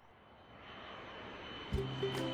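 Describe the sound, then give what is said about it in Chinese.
A steady airplane engine roar, a broad, continuous rushing drone that slowly builds in loudness and then holds, with no voices. “上午的时光一晃而过，杜艳里下午就乘上飞机，飞过山川大地与国境”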